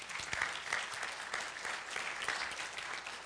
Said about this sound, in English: Would you welcome, give them a hand.